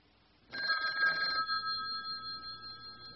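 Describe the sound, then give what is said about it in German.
A telephone rings faintly after a short silence. The ring starts with a buzzing bell rattle, then settles into a steady, clear tone that holds and slowly fades. “Das ist ein Telefon.”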